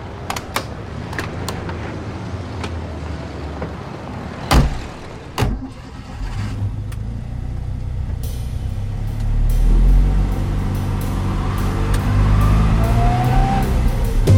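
A car drives off and accelerates: two sharp door thumps come first, then the engine's low rumble builds and grows louder and steadier.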